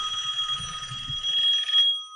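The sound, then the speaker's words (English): A telephone bell rings with a bright, rapid metallic trill, held as one sustained ring of about two seconds before it cuts off. “every time I tell that story, the phone rings twice.”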